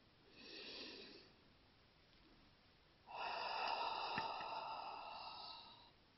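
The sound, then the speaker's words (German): Deep breathing in a guided meditation: a short, soft inhale through the nose, a pause, then a longer, louder exhale through the mouth that holds for about three seconds and slowly fades. “Atme jetzt einmal tief durch deine Nase ein und durch deinen Mund wieder aus.”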